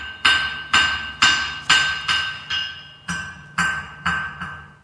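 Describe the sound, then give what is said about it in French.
Ten hammer blows on an anvil in a forge, each a sharp metallic clang ringing out and decaying before the next, struck in a steady rhythm of about two per second. “en faisant tonner le bruit sourd du marteau sur l'enclume”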